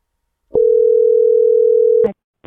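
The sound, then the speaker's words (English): A steady telephone dial tone while a number is being dialed: one continuous mid-pitched hum lasting about one and a half seconds. A click cuts it off, and a brief noisy burst follows at the end. “Dialing a number.”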